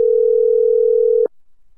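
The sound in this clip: A telephone ringback tone on an outgoing call: one steady, even tone lasting just over a second, then cut off abruptly with a soft click and quiet.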